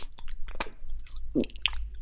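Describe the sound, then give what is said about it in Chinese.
A person chews food while eating a sundae and grilled chicken wings, making wet crunchy bites and squishy smacks in quick, irregular succession. The sound is moderately loud and no one talks. “正在吃东西呢”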